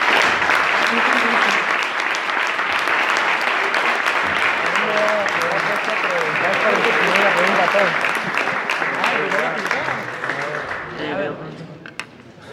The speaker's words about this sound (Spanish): Despedimos al Padre con un fuerte aplauso.